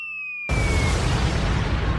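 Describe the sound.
A bomb explosion sound effect: a high whistling tone slides downward, then a sudden loud boom cuts in and rumbles on as a broad, steady roar.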